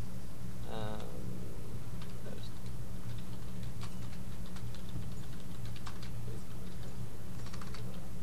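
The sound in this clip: Keyboard typing as a message is written on a BBS message board: quick, light key clicks in irregular bursts over a steady low hum.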